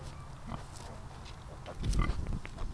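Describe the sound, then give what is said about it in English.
Grunting from 17 piglets and 2 young female pigs nesting and rooting on a small plot of land at Michigan State University: continuous low, rough grunts that swell louder toward the end, with no voices. “at Michigan State University, 17 piglets and 2 gilts are happily nesting and rooting on a small plot of land that they call home.”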